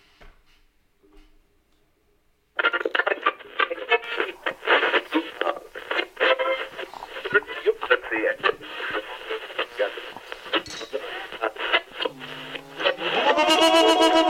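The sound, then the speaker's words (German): A radio is switched on: after a few faint, soft noises, a thin, band-limited broadcast sound cuts in abruptly and continues steadily to the end, carrying a voice. “Na dann, Radio an.”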